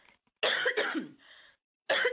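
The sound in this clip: Harsh, throaty coughing from someone with a tickle in the throat: a few loud, raspy bursts close together, then a short pause before another cough begins at the end.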